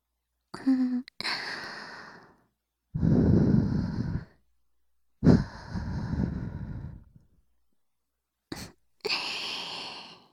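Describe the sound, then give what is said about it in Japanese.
Soft breathy blowing into the ear during an ear-cleaning roleplay: about four gentle, airy puffs with a few shorter breaths between them, each separated by silence. “さっきより、お耳ふうふうされるの、気持ちいいでしょ？”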